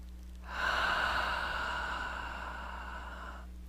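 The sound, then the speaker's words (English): A single long, deep breath: a steady, breathy rush that swells and then slowly fades, heard alone over a faint low hum. “Deep breath, please.”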